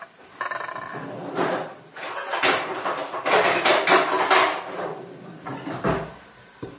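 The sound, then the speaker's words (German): A large cooking pot being handled, used as a steamer: many loud metallic clatters, knocks and scrapes arriving unevenly, with brief gaps between bursts. “So, mein Varoma ist mein riesiger Topf. Ich habe heute ein bisschen größeren genommen.”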